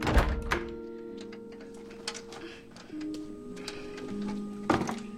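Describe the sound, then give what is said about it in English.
A workshop door being closed, heard as a few dull thuds and clicks over a faint steady tonal hum, with no talk. “closes the door behind him”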